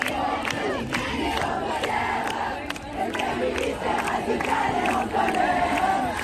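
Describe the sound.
A crowd at a feminist street rally in Brussels on a Saturday night shouts and chants in a loud, dense roar of many voices that carries on without pause.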